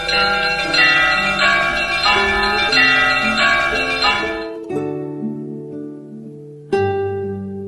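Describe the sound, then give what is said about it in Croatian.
Orthodox church bells ring on Christmas morning before dawn: a series of clear, resonant metallic strikes in a steady rhythm that gives way to lower lingering tones, with one more loud strike near the end. “Na Božić ujutru pre svitanja zvone sva zvona na pravoslavnim hramovima.”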